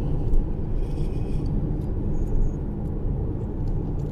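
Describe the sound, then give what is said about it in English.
A car driving at a sedate pace gives off a continuous low rumble with a few faint, higher ticks above it. No one talks. “As I drive at a sedate pace. Conscious of my speed, conscious of my actions.”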